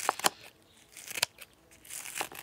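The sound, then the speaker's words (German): Kitchen scissors snip a handful of fresh herbs into a tin: a few sharp, crisp cuts come in uneven bursts, with light rustling of the stems between them. “dann schneide ich es mir einmal unten gerade und dann einfach mit der Küchenschere im Prinzip in so eine Dose rein.”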